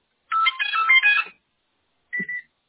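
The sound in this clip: Electronic beeps from a cordless telephone base as its call button is pressed, a bright warbling run of tones lasting about a second, a pause, then a quick double beep, with no voices.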